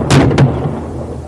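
Two sharp, loud gunshots caught on police dash cam audio during an armed confrontation between trailers, fired in quick succession near the start, with a booming low tail and steady background rumble after.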